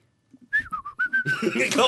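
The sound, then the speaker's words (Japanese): Human whistling: a brief phrase of a few clear, high notes with a slight downward drift, then a burst of louder, noisier sound takes over. “口笛でいいですか もちろんもちろん”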